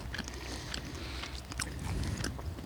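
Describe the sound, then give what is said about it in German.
Someone bites into and chews a Jägerknacker sausage while on a hike overlooking treetops and the forest, with quiet crunchy bites and soft wet chewing sounds repeating irregularly. “Und dabei essen wir einen Jägerknacker.”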